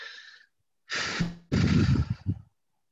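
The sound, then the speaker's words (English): A deep breath: a soft breath first, then a long drawn inhale followed by a louder, rougher exhale that trails off in a few uneven puffs, with no speech. “And I just take a deep breath to let my body know that's safe.”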